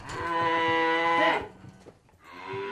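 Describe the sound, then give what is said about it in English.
Dairy cattle low on a farm in Holden, Missouri, on a frigid night: one long, loud, rich moo with strong harmonics fades out, and after a brief pause a second moo begins. “On a frigid night in Holden, Missouri, 63-year-old farmer Donnie Davidson is showing me what remains of his dairy herd.”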